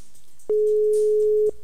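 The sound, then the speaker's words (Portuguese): A single steady telephone ringback tone on a collect call that goes unanswered, one even, mid-pitched beep lasting about a second and bounded by faint clicks. “Ah, ela não atende a cobrar, ó. É, tá vendo? Quando a gente liga a cobrar, não atende, não.”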